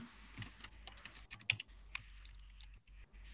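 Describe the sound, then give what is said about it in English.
Rapid keyboard typing, many irregular plastic keystrokes with occasional louder taps, clattering on its own with no voices. “I'm trying to type.”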